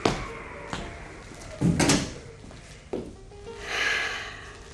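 A window being shut in a house overlooking hillside apple and cherry orchards: a few knocks and a broad scraping thud, then a softer rushing swish, with no voices.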